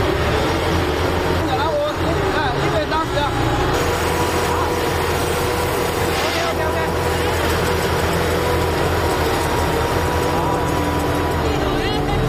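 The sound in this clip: A vehicle engine drones steadily after finally starting, apparently at a spot with deep water where vehicles are being pulled out. The loud, continuous hum runs without a break, with people's voices mixed in.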